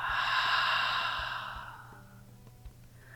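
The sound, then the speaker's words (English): Soft, gentle breathing during a guided meditation: one long airy exhale, loudest early on and slowly fading over about two seconds, then near quiet with no speech. “Taking a soft, gentle breath up into your heart center, gently breathing in and out.”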